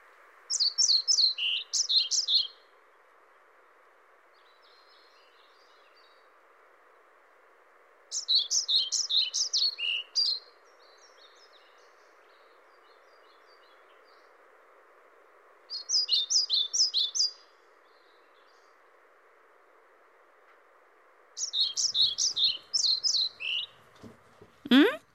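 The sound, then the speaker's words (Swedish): Pied flycatcher song recorded in Troms, Norway: four bright, rapid bursts of high chirping phrases, each lasting a couple of seconds and separated by longer pauses, over a steady low background hum. “nu tycker jag att vi lyssnar lite på svartvit flugsång.”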